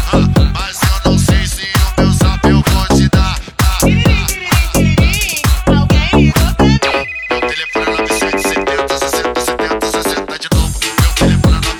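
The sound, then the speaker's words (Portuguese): A loud musical phone ringtone plays on without pause, a busy electronic melody over punchy rhythmic beats that shifts into a quicker repeating pattern partway through. “Alguém ligou pra mim? Alguém ligou pra mim? Esse é o telefone do GW.”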